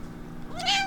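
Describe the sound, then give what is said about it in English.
A pet cat in a kitchen gives one short meow, a clear call whose pitch rises and then levels off, over a faint steady background hum. “We're talking to my kitty Pippa, who's standing here in the kitchen, giving me the yangs.”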